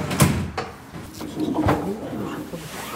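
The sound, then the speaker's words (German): The tailgate of a Munich funeral company's hearse being opened: a few wooden-sounding clunks and knocks, with a sliding, rattling movement in between. “Die Heckklappe eines Wagens des Münchner Bestattungsunternehmens Akimi Urawa wird geöffnet”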